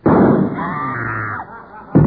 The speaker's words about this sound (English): Idly, she toys with the boiled potato in her Cuba Libra, when suddenly the lights go out. A shot is heard.